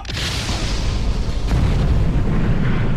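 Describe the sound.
A spaceship weapon fires a shot: a loud, broad boom opens into a sustained rumbling roar that swells slightly and holds to the end.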